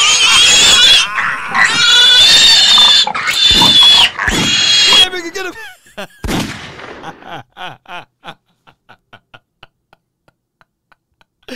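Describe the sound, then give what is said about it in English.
Pig squealing: shrill, strained squeals and grunts fill the first five seconds, followed by a run of short, sharp clicks that grow fainter and more widely spaced. “Where that pig at? Where that pig at? Get that pig up out of here.”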